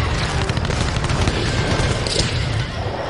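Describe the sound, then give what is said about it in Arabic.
Cannon fire in a battle with a bridge-demolition raid nearby, a loud, continuous wall of booming blasts mixed with crackling bursts of gunfire. “عافية، المهم ينخرس هذا المدفع.”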